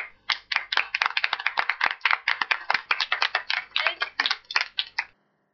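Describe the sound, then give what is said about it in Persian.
Applause for a speaker: a quick, uneven run of many sharp claps that keeps a fairly steady pace and then stops abruptly. “فکر کنم هممون براش دست بزنیم تا بلند شه و بره روبروی جمع بیست و شروع کنه.”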